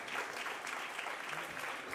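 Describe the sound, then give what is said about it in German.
Applause for a speaker who has described decades of mafia events in Corleone, Sicily, to visiting students at a documentation centre: a faint, dense, steady wash of clapping with no break. “Für die drastische Schilderung der Ereignisse der letzten vier Jahrzehnte in Corleone erhält Alessandro viel Applaus.”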